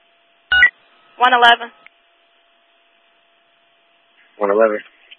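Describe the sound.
Electronic telephone dialing tones as a call is placed, a few short bursts separated by silence.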